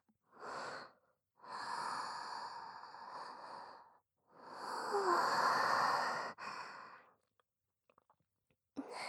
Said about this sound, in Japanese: 落ち着いて。深呼吸。